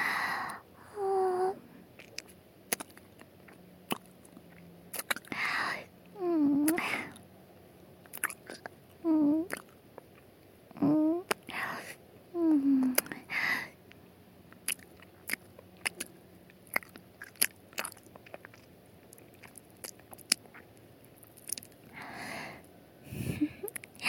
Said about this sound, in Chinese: 你看，人家舔的哥哥耳朵上全是口水了。把哥哥的整个耳朵含住。